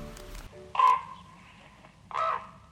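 Two hoarse, croaking calls from a raven in the Ásbyrgi canyon in Iceland, each short and fairly loud, evenly spaced with a quiet pause between them.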